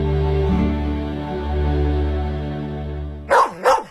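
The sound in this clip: Two quick barks from a dog close out a Wuliangye Year of the Dog zodiac liquor advertisement. They come in fast succession after a long, sustained low tonal drone.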